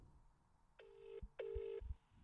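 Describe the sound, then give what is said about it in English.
Phone ringback tone heard while calling the speaker's brother: two long, steady ring bursts separated by a short gap, with faint low bumps beneath and no talk. “Let's give my brother a call. see if he picks up.”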